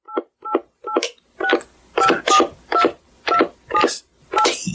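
Telephone keypad tones sound as a number is dialed to leave a voicemail: a quick series of short, evenly spaced two-note beeps, the later presses louder and fuller than the first few.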